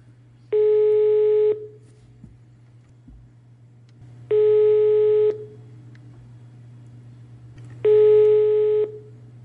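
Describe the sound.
A telephone ringing tone sounds while a caller waits for a listener to answer: three long, steady, mid-pitched tones separated by pauses of a few seconds, over a low constant hum.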